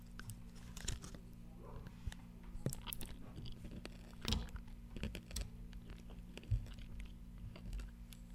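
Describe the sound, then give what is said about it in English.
Crunchy chewing on a Nerds Rope candy, heard as faint, crisp crackles and bites scattered irregularly over a low, steady hum, with no talking. “Hear the crunch. I already finished. This is some ASMR for people who like that. I'm about to bite into a nerd's rope.”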